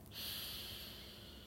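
A deep inhale during a guided breathing exercise: one smooth, airy intake of breath through the nose, soft and steady for more than a second.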